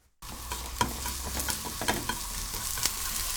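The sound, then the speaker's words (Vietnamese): Sliced onion and mushrooms fry in vegetable oil in a pan, giving a steady, even sizzle with a few sharp pops and crackles scattered through it. No voices are heard. “Đun nóng 2 thìa cà phê dầu thực vật trên chảo. Phi thơm lượng hành đã thái, sau đó đổ nấm đã thái mỏng vào.”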